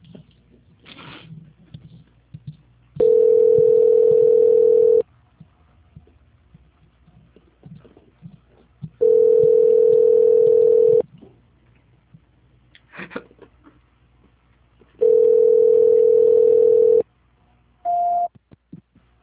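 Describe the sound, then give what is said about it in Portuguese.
A telephone transfer tone plays while a call is put through: three long, steady mid-pitched beeps of about two seconds each, evenly spaced, then a shorter, higher beep at the end. No one talks. “Só um minuto, por favor, que eu vou transferir a sua ligação. Certo. Transferência.”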